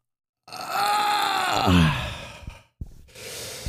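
A woman's long, drawn-out groan that sounds like a sigh, voiced and breathy, sinking in pitch toward its end. A brief pause and a couple of short knocks follow.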